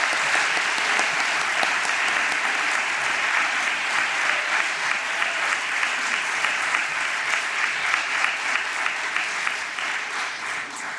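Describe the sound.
An audience applauds to welcome a reverend as a speaker, a dense, steady clapping that holds at an even loudness for the whole stretch and fades slightly at the end.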